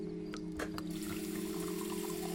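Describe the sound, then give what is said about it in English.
Water runs from a bathroom sink tap into a glass, a steady rushing flow with a few light clicks at the start, heard over a constant low hum. “She picks up a glass and fills it.”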